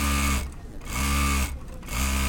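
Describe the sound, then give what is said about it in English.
Traditional sewing machines running in a factory give a loud, steady mechanical whir that stops briefly twice before starting up again. “99 Degrees has about 50 employees, and right now, a lot of them are still doing manual work on traditional sewing machines.”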